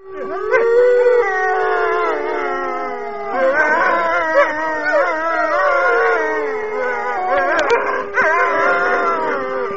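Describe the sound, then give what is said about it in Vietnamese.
A dog howls piteously in a corner of a yard: a few long, wavering, tonal cries, loud and alone with no voices. “Spot tru lên thê thảm nơi một góc sân bên kia”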